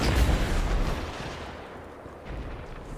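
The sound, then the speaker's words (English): A grenade explodes during a Destiny 2 Crucible player-versus-player match, a deep booming rumble that hits loudest at the start and fades over a few seconds, with a slight swell near the end. “Standing in a grenade.”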